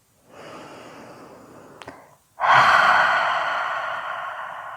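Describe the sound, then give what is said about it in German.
Deep, intense breathing: a softer drawn-in breath, then a brief pause and a loud, long exhale that slowly fades, with no talking. “Atme dabei tief, intensiv”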